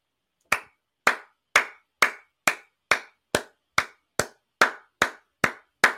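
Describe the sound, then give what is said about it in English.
Hand clapping offered as a round of applause for NBA player Kevin Durant: twelve sharp, evenly spaced claps at a slow, steady beat, each crisp and clear with nothing else in between. “round of applause for Kevin Durant.”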